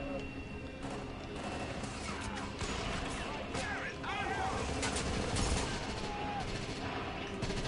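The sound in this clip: Gunfire from a video game headshot: a dense, continuous stretch of sharp cracks and bursts that blur into steady rattling, with voices talking over it.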